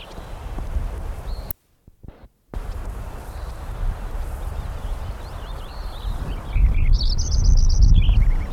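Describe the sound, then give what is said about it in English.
Lincoln's sparrow song, a brief, high, bubbly trilled phrase near the end, with a few faint high chirps before it, over loud constant low rumbling noise. “Lincoln Sparrow number 4 again.”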